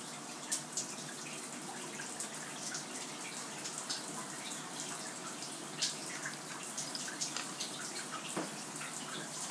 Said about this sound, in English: Kind of a delicate one, really. Sound of the shower.